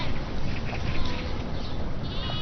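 A grazing flock of sheep bleats, with several overlapping cries rising faintly above a constant wash of broad, rough noise.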